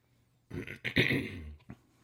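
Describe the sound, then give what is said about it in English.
Throat clearing from a person with seasonal allergies: a rough, gravelly rasp lasting about a second, followed by one short grunt-like catch after a brief pause. “Allergy season, folks. Sorry for all the clearing of the throat.”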